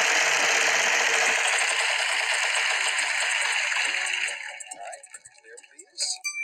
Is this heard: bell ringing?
no

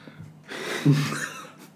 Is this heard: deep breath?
yes

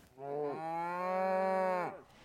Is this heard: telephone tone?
no

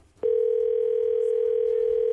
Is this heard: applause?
no

